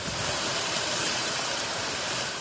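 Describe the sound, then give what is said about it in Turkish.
Water gushes from a supply main that burst when frost froze it, a dense, steady roaring hiss that holds at the same loudness throughout, with no pauses. “Don nedeniyle patlayan borudaki su metrelerce havaya fışkırdı.”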